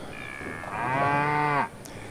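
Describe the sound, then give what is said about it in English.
Cow mooing as cattle are brought in for a Bowling for Cows tournament: one long, loud, low moo that holds for about a second and then cuts off. “I'm sitting here, and here they come. They're bringing in the cows.”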